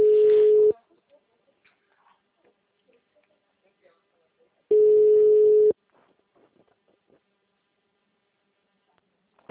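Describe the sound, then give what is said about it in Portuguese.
Telephone ringback tones while a dropped call is redialed: two buzzy, steady mid-pitched beeps, each under a second long, separated by about four seconds of near silence with faint clicks. “Eu tô tentando ligar de novo.”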